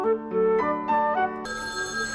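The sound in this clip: An electronic telephone rings in a short melodic sequence of stepped tones, ending on a brighter sustained tone, heard alone without voices.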